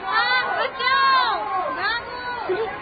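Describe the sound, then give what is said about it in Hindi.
Riot crowd noise swells continuously as many agitated voices shout and cry out over one another. “सुनिए सुनिए, ये शोर भी तो इधर ही आ रहा है और लोग भागते हुए भी आ रहे हैं।”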